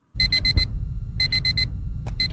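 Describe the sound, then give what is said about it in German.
An alarm clock beeps on a May Day holiday morning in South Africa, sounding rapid groups of four bright, high-pitched beeps separated by pauses, with a steady low rumble running underneath throughout. “sodass selbst am Maifeiertag morgens der Wecker klingelte.”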